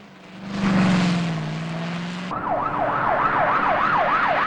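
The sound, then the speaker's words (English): A police car siren wails in a fast, regular up-and-down cycle during a film car chase. It cuts in loudly after a rushing, engine-like roar fades away. “The two police cars also cut across traffic.”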